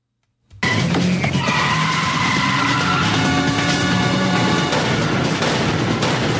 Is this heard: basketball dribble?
no